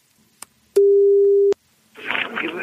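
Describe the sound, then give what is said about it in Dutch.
A telephone call placed to someone: a click, then one steady mid-pitched line tone held for under a second and cut off by another click, followed by rough, hissy line noise. “Dus die gaan we maar weer even terugbellen, want die is blijkbaar weer te bereiken.”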